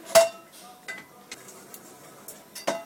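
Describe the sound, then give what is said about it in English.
Metallic clinks and light scrapes from a copper pan being re-tinned in a small shop, heated over a propane burner and rubbed with ammonium chloride powder. A few sharp clinks stand out, the first loudest, over a faint, quiet background. “Muzaffer Golay heats the inside of a copper pan over a propane burner. He grabs a pinch of white powder, ammonium chloride, and rubs it around the pan.”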